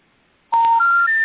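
Telephone dialing tones placed while calling a guest: a loud, quick run of electronic keypad tones that steps upward in pitch. No talking is heard.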